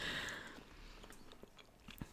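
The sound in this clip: Faint chewing of milk chocolate, with soft, moist mouth clicks and small crunches repeating irregularly; no talking.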